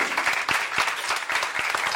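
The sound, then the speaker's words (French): Audience applause closes a live talk-show debate: dense, steady clapping from a crowd that stays loud and even through the whole clip, with no voices rising above it. “Sylvain, on peut l'applaudir.”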